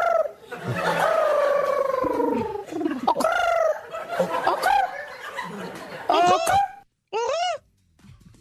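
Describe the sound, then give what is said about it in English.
A person imitates a pigeon's cooing with warbling, rolling vocal calls mixed with laughter. It ends with a few brief hoots that rise and fall in pitch, with short pauses between them. “That's a different noise. It's like a cold pigeon in New York City.”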